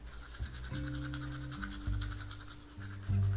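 Brushing teeth with a toothbrush: a steady, scratchy run of quick back-and-forth strokes that continues without a break through the whole short stretch.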